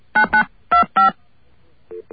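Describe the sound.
Telephone keypad tones sound as an access code is entered for a long-distance call: four loud, crisp beeps in quick pairs, followed by two fainter, lower beeps.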